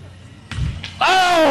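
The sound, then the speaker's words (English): A basketball bounces off the rim at a carnival shooting game in Urbandale, Iowa, making a couple of brief dull thuds, followed by a voice speaking loudly. “Oh, it's a rim out.”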